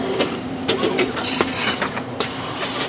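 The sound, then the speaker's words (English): Laboratory robots and DNA sequencing machines running as they prepare samples: a steady mechanical whir and hum broken by a few sharp clicks and clunks at irregular moments. “Robots at Genescence prepare 40,000 DNA samples a day to go through one of the world's largest collections of privately owned DNA reading machines.”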